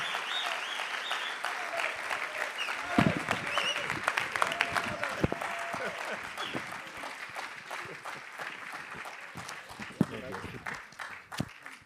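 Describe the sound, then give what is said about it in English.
A church audience applauds to welcome a speaker, with sustained clapping and crowd noise running throughout and voices heard over it. “Would you give him a really, really big, warm welcome?”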